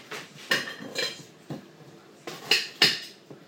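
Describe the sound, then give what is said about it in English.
A knife chopping an onion into big chunks: a few sharp, irregular cutting knocks with crisp clicking edges, fairly quiet, with no voices. “I'm doing the onion for the steamer, I cut it quite big.”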